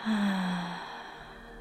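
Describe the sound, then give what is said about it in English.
Breath released through the mouth in a guided breathing exercise, a single soft, airy sigh that fades out over about a second and a half. “and again breathing in through your nose, and out through your mouth,”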